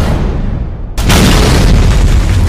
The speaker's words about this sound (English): Boom goes the dynamite.